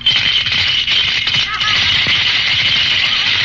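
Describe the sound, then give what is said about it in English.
Coins rattle inside a hand-grenade-shaped piggy bank as it is shaken, a dense, continuous metallic clatter that runs steadily for about three and a half seconds with no talk over it. “Wow, you got money in there. Uh-huh. Gosh, and I was afraid to touch it. I know. It's the safest little piggy bank in the world.”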